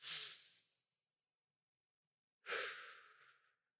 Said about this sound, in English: So if you'd like to join us with this, please take a deep breath.